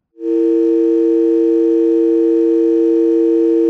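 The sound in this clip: A telephone tone signals an incoming call: one steady, unbroken hum that begins abruptly after a brief silence. It holds loud and even, alone, for over three seconds.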